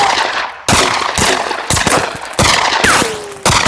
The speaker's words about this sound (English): The manhunters eventually began firing indiscriminately.